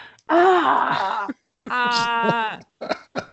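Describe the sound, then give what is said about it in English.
A person groans on a game show: two drawn-out, voiced groans with a wavering pitch, followed by a couple of short vocal bursts. “Groan.”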